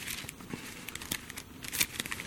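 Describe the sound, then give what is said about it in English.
Congregation turning Bible pages during a church service: many soft, overlapping paper rustles and crinkles scattered irregularly, some briefly louder, with no speech over them. “Turn over to 2 Peter chapter 1 for a moment.”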